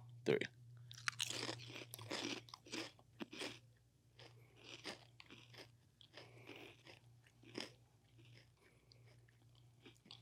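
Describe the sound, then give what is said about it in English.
Potato chips are bitten and chewed in a quiet setting: a sharp first crunch is followed by many crisp, irregular crunches of chewing, with soft sounds between them. “Give you some ASMR here. Grab myself a chip as well.”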